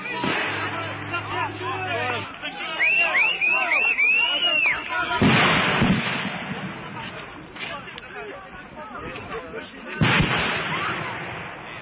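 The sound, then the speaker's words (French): Shots fired by mobile guards at antinuclear protesters at a barricade near a power plant: a few sharp, booming blasts over a steady crowd din, with shouting voices and a wavering whistle-like tone earlier on. “Les manifestants étaient à peine arrivés devant le barrage organisé par les gardes mobiles à environ 800 mètres de la centrale que déjà les tirs commençaient.”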